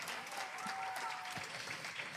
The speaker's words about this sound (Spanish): voy a presentar a Mariana Mella, por favor, un aplauso fuerte.